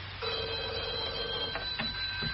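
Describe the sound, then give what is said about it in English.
A telephone rings at a police station: one long, steady electronic ring, then a couple of brief, broken bursts of tone, sounding somewhat thin and band-limited. “Answer that other phone, constable, will you?”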